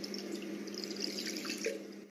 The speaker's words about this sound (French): On met le papier essuie-tout dans le saladier, on mouille avec de l'eau.